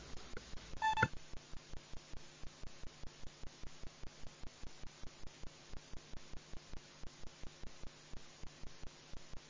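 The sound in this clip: An electronic signal tone marks the start of a council vote: a brief steady tone at the beginning, then many rapid, evenly spaced ticking pulses that continue to the end over a faint hum.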